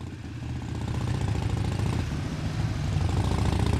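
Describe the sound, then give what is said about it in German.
Thirty heavy, high-horsepower motorcycles setting off together: a dense, low, steady engine rumble with throttle pulses that grows slightly louder over the few seconds, with no voices. “30 schwere Motorräder werden hier in Marsch gesetzt. Ein Geschwader von PS-starken Maschinen.”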